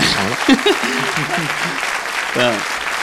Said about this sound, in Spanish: Un aplauso para estas dos personas.